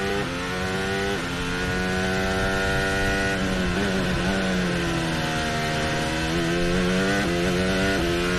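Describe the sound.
A Formula One race car engine in fifth gear gives a loud, continuous, buzzing whine with no gaps. Its pitch wavers, dipping briefly and climbing again.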